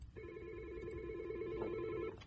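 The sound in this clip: A telephone rings for an incoming caller on a radio call-in line: one faint, steady electronic ring lasting about two seconds, with no talk over it.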